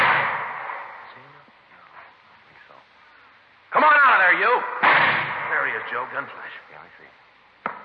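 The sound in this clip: Gunshots in an old radio crime drama about police confronting an armed man: a few sharp, loud cracks with thin, narrow-band tone, mixed with men talking.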